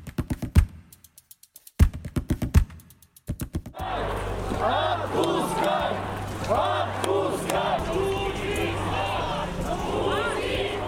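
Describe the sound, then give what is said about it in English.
Crowd noise from a street protest in Moscow during a violent police crackdown: after a few seconds of sharp, rapid clicking taps, a dense, loud roar of many voices and shouting takes over and continues steadily. “That's the sound of another day of protests in support of opposition politician Alexei Navalny and their violent crackdown in Moscow.”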